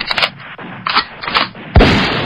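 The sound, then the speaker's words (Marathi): Gunfire as a soldier fires at a man lying in ambush during a military encounter. A few sharp, loud cracks arrive in irregular bursts, and a heavier, sustained blast follows near the end. “आबुताबावर name धरीत गोळी चालवली.”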